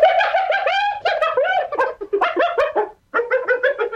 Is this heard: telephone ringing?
no